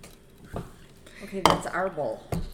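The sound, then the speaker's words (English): A bowl is set down, giving three sharp clinking knocks spread across a couple of seconds, with a voice briefly heard between them. “So get your bowl down.”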